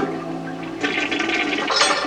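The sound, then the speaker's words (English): A toilet flushing torn-up paper in a 1960 film scene: after a short pause, a loud rush of water bursts in and keeps churning steadily, building slightly toward the end. “And then she tears up the paper and she flushes that torn up paper down the toilet.”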